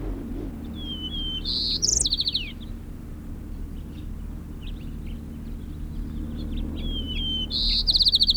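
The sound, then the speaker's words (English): White-crowned sparrow song, sung twice: each phrase opens with a clear high whistle and ends in a buzzy, rapid trill, over a steady low rumble. “White crown sparrow”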